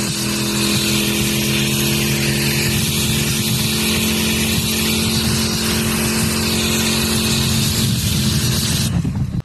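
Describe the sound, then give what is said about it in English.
Engine roar of a Holden Centura driven on a track with skid tyres fitted, a loud, steady droning note that runs continuously with no talk over it. “We're having a bit of fun in the Centura out there on the track. Yep. With the skid tires on.”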